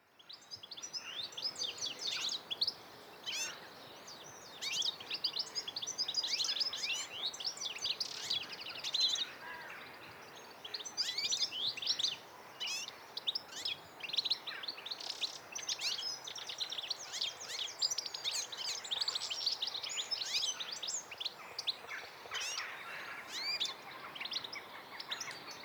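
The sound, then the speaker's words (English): A group of goldfinches chatter together in a dense, continuous stream of high, overlapping twittering chirps and tweets, fairly faint and with no voices. “it's when you hear them all together that you've got this characteristic sound that allows you to go, ah, there's goldfinch here. And this is a group of goldfinch all chattering together.”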